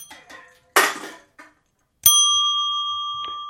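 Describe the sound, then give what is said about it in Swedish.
A bright ding chime rings out as one clear strike that sustains with a smooth, slowly fading tone. A softer second tap lands near the end, and a few short noisy bursts come before the chime. “ska vi ta ett snabbt plingare?”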